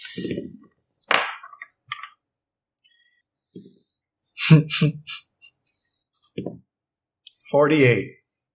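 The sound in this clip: Dice rolled for a tabletop roleplaying game make a short burst of sharp clicking clatter in the middle, set among people talking back and forth.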